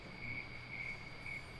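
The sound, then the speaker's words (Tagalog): Insects chirp at night in a faint, steady high trill, with three slightly brighter pulses spaced evenly through it and no voices. “Sa mga oras na iyon, tanging mga tunog ng insekto at ang mga kuros ng mga nagsisimba mula sa masjid ang nagpapaingay sa paligid.”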